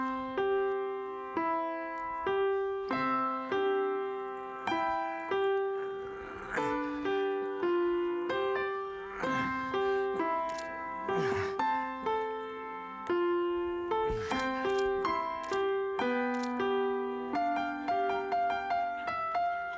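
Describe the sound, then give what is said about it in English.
A seven-year-old child playing the piano: a simple melody of many single, separate notes in an even, slightly halting rhythm, each note decaying quickly, heard alone at moderate volume. “I want to remind you of what a 7-year-old child sounds like when he plays the piano.”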